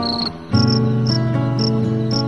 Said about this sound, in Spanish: El grillo, sereno, contento, cantaba melodías de amor.